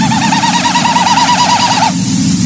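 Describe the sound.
Winnowing display sound of a common snipe in Newfoundland, made by males early in the breeding season. A hollow, rapidly pulsing hoot holds a fairly steady pitch for about two seconds and then stops abruptly, over a constant background hiss.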